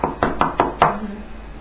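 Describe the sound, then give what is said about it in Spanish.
Five sharp, evenly spaced knocks on a courtyard door, each a quick hard rap, followed by a short fading tail with no voices. “Cuando llamó Pedro a la puerta del patio,”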